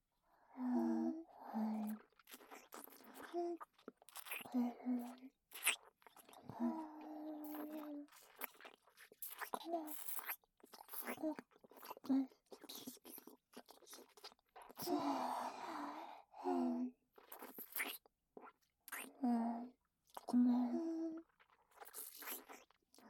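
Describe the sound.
Close, wet ASMR licking and mouth sounds come in many irregular bursts of smacks and soft crunchy clicks. Quiet whispering runs between them, with short pauses of near silence.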